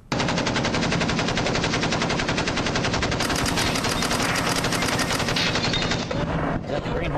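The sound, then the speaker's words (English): Machine-gun sound effect: a loud, unbroken stream of rapid automatic gunfire that rattles on steadily for about seven seconds, then dips briefly just before the end. “Well, we used to have a soundtrack that went with it, too, Flight of the Valkyries, but then we realized, whoops, we don't have the rights to that music, so we're not playing that. We just have the machine gun running.”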